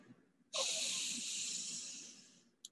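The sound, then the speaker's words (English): A deep breath during a vocal warm-up breathing exercise: one long, bright hissing rush of air that starts sharply, holds for about two seconds and then tapers off, followed by a faint click. “So 5 breaths there. Here we go.”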